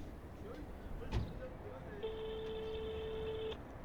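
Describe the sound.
A telephone call being placed to the mayor's office: after a brief knock, a single steady electronic line tone holds for about a second and a half, then stops.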